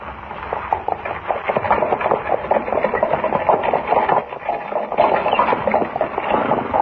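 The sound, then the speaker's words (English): A horse-drawn buckboard wagon rolls along as a radio drama sound effect: a steady, busy clatter of hooves and rattling wood that keeps an even rhythm and loudness from start to end. “How long before we reach your place, Comanche? Another half hour, Jimmy. How do you like riding in a buckboard, eh?”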